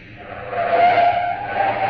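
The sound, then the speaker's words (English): An old sports car is gunned up to the curb on a night street off Sunset Strip. The engine roar swells to a peak midway, then eases slightly and holds, with no voices. “The car jock gunned my old sports car up to the curb.”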